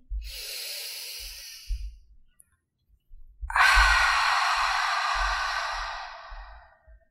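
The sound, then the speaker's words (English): Two long breaths, an exhale and an inhale, come as soft airy hisses separated by a short pause. The second is longer and louder, with faint low thumps beneath. “Exhale completely. Go ahead, breathe in.”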